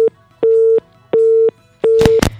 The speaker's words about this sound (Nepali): सम्झना सन्देश राखेर राख्दै उहाँको कल डिस्कनेक्ट भयो, पक्कै पनि नेटवर्कको समस्या या ब्यालेन्स सकिएर हुनसक्छ।